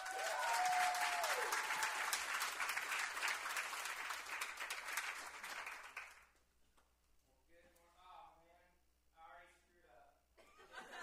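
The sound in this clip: A church audience applauds to welcome the pastor onto the stage, with loud, sustained clapping mixed with some chuckling. The clapping fades after about six seconds and a voice begins speaking.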